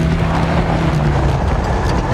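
A car drives through the desert: loud, continuous engine and road rumble under a low steady hum, with no talk.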